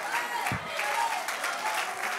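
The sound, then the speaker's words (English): Congregation clapping hands in a church, dense, sustained applause at an even level, with a voice briefly audible over the clapping. “clap your hands because you believe you have victory in Jesus' name.”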